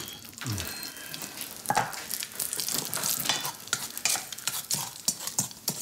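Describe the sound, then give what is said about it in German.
Bacon frying in a pan, meant to go with scrambled eggs: a continuous crackling sizzle broken by many sharp, irregular pops and crackles, with no talk. “Was riecht hier eigentlich so? Ach, auch das noch, der Speck. Ich wollte Rührei und Speck machen.”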